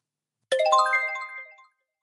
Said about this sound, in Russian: Гости. Звонок в дверь. Хозяин открывает, на пороге гости.